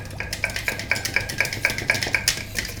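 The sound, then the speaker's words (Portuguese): Egg whites beaten by hand in a bowl without a mixer, the whisk making a fast, steady, evenly spaced clinking and scraping. “deixa que eu bato as claras, já que não temos batedeira”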